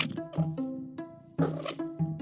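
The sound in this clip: An indoor cat mutters at birds through a window screen, making several short, tonal chirps and trills in an uneven rhythm, fairly quiet and without voices.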